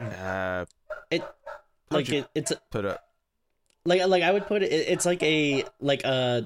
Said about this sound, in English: as my dogs are going crazy, they know we're talking about wolves